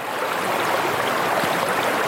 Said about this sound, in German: Wenn man am rauschenden Wasser der historischen Krämerbrücke sitzt, die nackten Füße ins kühlende Wasser getaucht, die Augen schließt